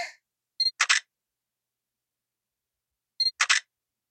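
A camera shutter fires as photos are taken from behind, in two separate shots. Each is a crisp cluster of two or three quick clicks, with near silence between them.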